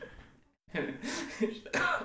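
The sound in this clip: A voice imitates a cough, giving a few rough, breathy bursts after a brief silence.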